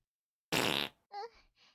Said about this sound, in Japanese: やっぱ、屁出た。